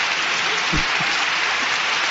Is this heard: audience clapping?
yes